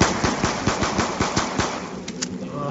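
Rapid gunfire as zombies are shot in a video game: a steady burst of many sharp, evenly spaced shots that thins out and gives way to quieter game noise near the end, with no talk.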